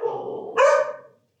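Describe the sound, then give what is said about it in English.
A single dog bark from a dog walking past a house on the other side of the street, about 100 yards away. The bark is short and mid-pitched, with a brighter, sharper second half, and ends in silence. “hold please while a dog walks by our house 100 yards away. On the other side of the street.”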